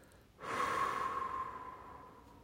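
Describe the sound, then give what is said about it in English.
Breath drawn in through the nose and let out through the mouth: one long, soft, airy breath that begins suddenly, holds steady, then slowly fades. “allowing yourself, if it is comfortable, to breathe in through the nose, and allow yourself to exhale through the mouth.”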